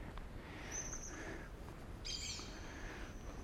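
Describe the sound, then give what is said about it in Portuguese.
Yellow-chevroned parakeets calling in two short bursts of high, scratchy chatter, faint over a steady wash of background noise. “naturalmente acompanhado de mais periquitos de encontro amarelo.”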